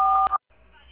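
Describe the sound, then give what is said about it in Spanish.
A voicemail beep tone: one short, steady electronic beep lasting about a third of a second, cut off abruptly, then a brief silence and low telephone line hiss. “Por favor, deje su mensaje después de la señal.”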